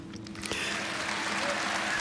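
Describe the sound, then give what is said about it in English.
Applause from a live audience at the end of a concert recorded for a live album: a dense, steady patter of clapping that swells in after a brief quieter start and carries on evenly to the end. “It's a live album, and those people applauding there at the end were real human beings who were present at the time it was recorded.”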